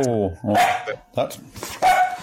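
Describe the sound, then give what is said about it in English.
A female dog barks a few loud, sharp times in quick succession, with short gaps between the barks. “That's my dog. Oh, yeah, off she goes.”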